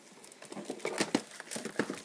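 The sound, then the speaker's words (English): Baking paper being handled to line a tin for batter gives many irregular crinkles and rustles that come in soft bursts, louder in the middle and toward the end. “baking paper to make sure that the batter doesn't stick to the bottom,”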